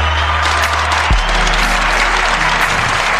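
Canned audience applause, a recorded crowd clapping track, rolls on loud and steady throughout, with a low hum running beneath it.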